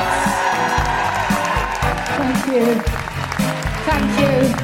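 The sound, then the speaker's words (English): An audience applauds and cheers a guest walking on at a live comedy show, steady clapping and cheering over a thumping music beat. “Put your hands together and make incredible woohooing noises for the one, the only, the glorious, the joyful, the feminist, Jessica Hynes!”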